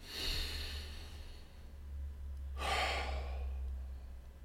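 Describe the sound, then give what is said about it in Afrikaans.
A deep breath taken during a guided Bible reflection: one long, breathy rush of air swells and fades, over a steady low hum. “So lekker diep asem.”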